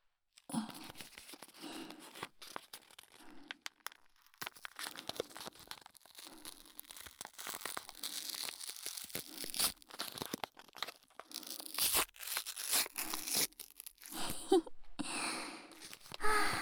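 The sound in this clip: Wrapping on a package is torn open: many irregular rips, crinkles and crunches of paper or plastic, varying in loudness throughout, with no talk.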